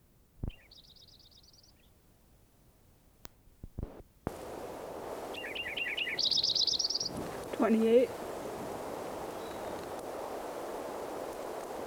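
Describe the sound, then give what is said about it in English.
A Lincoln's sparrow sings in short, bright, high-pitched trilled phrases that rise and buzz, heard faintly over a steady background hiss, with a lower brief note near the end and clicks and handling noise at the start. “Lincoln Sparrow number 5 again. Trying to get some more recordings of him.”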